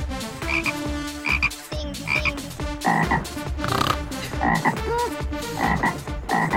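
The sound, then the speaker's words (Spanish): A voice imitates a frog's croaking: loud, rapid, rhythmic croaks repeating many times without pause. “Oye, es muy difícil hacer la rana, ¿eh?”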